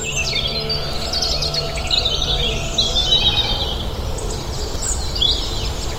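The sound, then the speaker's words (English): Dawn chorus of many birds high in a temperate woodland canopy, with overlapping chirps, tweets and trills running continuously over a steady low background rumble. “It's coming up to 6:15 in the morning. And I've been woken up by a fantastic dawn chorus.”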